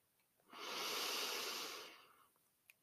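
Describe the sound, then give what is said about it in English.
One slow breath drawn in during a guided bedtime meditation, a soft, airy inhale that swells and fades over about a second and a half, heard alone and quiet. “And we're going to breathe in”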